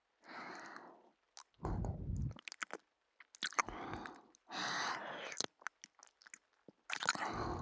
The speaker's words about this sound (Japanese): 優しく噛むだけですからね。ほら、こんな風に。